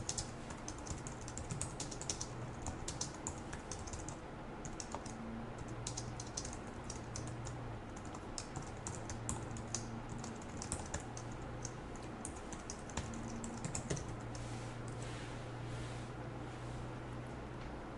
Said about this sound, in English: So go ahead and follow along with me as I type.